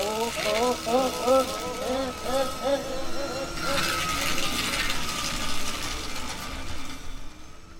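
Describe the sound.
A paper shredder shreds documents with a steady mechanical grinding drone that runs the whole time under people talking.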